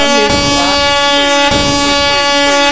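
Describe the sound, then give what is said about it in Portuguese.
Blaring air-horn sound effect fired during a live funk DJ set, with stacked harmonic tones and sweeping pitches. It is very loud and sounds in two sharp bursts that ring on continuously. “Pera que eu trouxe a buzinada.”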